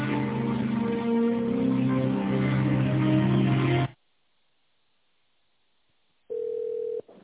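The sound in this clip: Telephone line sound while a call is being transferred: a dense, steady electronic tone holds for about four seconds, cuts to silence, then a single short steady beep sounds.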